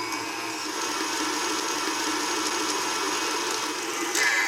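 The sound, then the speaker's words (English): Electric mixer beating Italian cream cake batter after about a cup of coconut is added, a loud, steady whirring drone that holds even throughout, with a brief change in tone near the end. “Now, I'm gonna add in an essential ingredient in any Italian cream cake, coconut. I'm gonna add in about a cup. Okay, I'll beat this together.”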